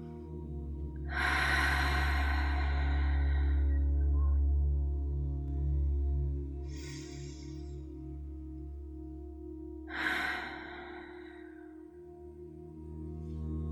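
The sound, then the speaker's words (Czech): Deep breathing in and out during a guided relaxation exercise, with the chin tucked toward the chest. A few slow, airy breaths are separated by long pauses over a steady, soft, low musical drone. “brada směřuje směrem k hrudníku, hluboký nádech a výdech.”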